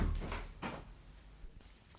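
A door swinging shut, a couple of dull wooden knocks close together early on, then a low quiet rumble that fades away.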